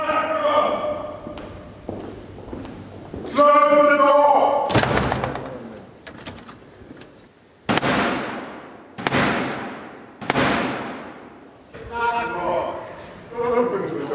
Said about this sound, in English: Now, that was the sound of the 350-year-old tradition of the King's Messenger, the Black Rod, knocking to gain entry after having Parliament's door slammed in his face.